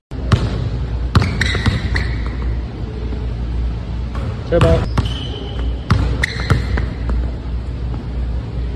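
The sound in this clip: A basketball bounces on the floor of an empty gym during shooting practice. Several sharp, irregularly spaced thumps rise above a steady low background rumble.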